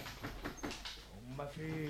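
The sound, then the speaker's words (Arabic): Palace doors opened by a chamberlain in a radio drama: a creaking, groaning door effect with wavering tonal creaks, moderately loud and continuous for about two seconds. “طيب يلا افتح لي الابواب. امرك يا كبير الحجاب. وادي الباب.”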